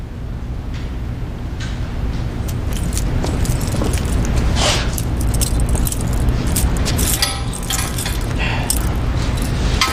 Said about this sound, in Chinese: 来，把他手铐打开。 打开。